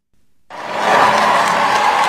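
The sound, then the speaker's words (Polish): Crowds of faithful in the streets of Metz applaud Pope Leo XIV at the close of his visit to France: after a brief hush, a loud, dense crowd roar with applause starts abruptly and holds steady. “Na ulicach Metz papieża żegnały tłumy wiernych, około 100 tysięcy osób. Tłum skandował imię papieża i żegnał go oklaskami.”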